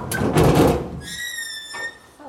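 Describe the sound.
A heavy sealed metal container door is pulled open by the levers beneath it: a rough scraping burst, then a sustained high metallic squeal, then a shorter scrape.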